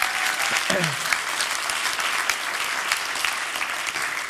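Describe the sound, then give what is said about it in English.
Applause from a church audience during a service, a dense and steady clapping that holds an even loudness from start to finish. “You all ought to give God a hand just for what's happening here. Can we do that?”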